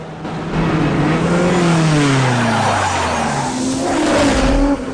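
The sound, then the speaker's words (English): A car engine winding down after a gunshot punches a hole in the bonnet during a chase with a truck, its droning pitch sliding steadily lower as the car is forced to pull over. “The truck driver shoots a hole in Dom's bonnet. The engine slows down and he's forced to pull over, but Brian's right behind them.”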